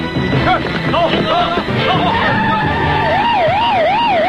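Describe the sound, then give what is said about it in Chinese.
Police car sirens wail with a steady rising and falling pitch, growing clear after a noisy, rumbling opening. “有很多警车”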